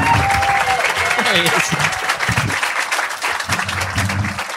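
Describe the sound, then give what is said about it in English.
Loud live-audience applause greets a producer being called up on stage at a live show. Shouting and cheering voices rise over the continuous clapping. “We should welcome our wonderful producer to the stage. Give it up for the Griff, everybody. Give it up for the Griff.”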